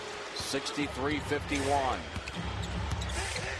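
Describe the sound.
A basketball is dribbled during a professional game. Repeated low bouncing thuds sound under continuous commentary from a man talking.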